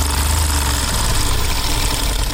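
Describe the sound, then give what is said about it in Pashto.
Sewing machines run in a prison tailoring workshop in Kabul, giving a loud, continuous mechanical whirring and chattering drone without pause. “دا کابل د سرخپ له زندان کې د خیاطۍ دستګاه ده چې بلزګونو زندانیان پکې دغه حرفه زده کوي.”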